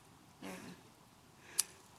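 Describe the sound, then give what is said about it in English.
Faint snipping of scissors cutting a piece of paper: a brief soft rustling cut, then a single sharp click a second later, all quiet. “See if you can use those scissors to cut this piece of paper.”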